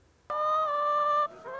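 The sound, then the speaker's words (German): A free-range laying hen on a farm in Lower Saxony gives one long, steady, nasal call lasting about a second, then a quieter, shorter call, against near silence. “Einige Landwirte schützen ihre Hühner mit einem engmaschigen Netz”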